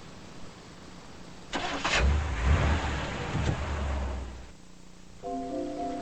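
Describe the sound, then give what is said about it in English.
A car engine cranks and fires up: a loud rumbling burst lasting a few seconds that settles into a lower running drone before dropping away. “With his deputy beside him, Stick starts the car.”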